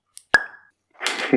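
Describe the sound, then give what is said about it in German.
A single sharp pop as a bottle of Double Bass Drum craft beer is opened, with a brief ringing tone that fades quickly, then a soft fizzing hiss about half a second later. “Dann mache ich das Double Bass Drum auch schon mal auf.”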